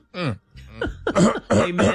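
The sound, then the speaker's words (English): Throat clearing at a morning church service: a few rough, throaty bursts in an uneven rhythm, moderately loud and heard alone. “Let me clear my throat.”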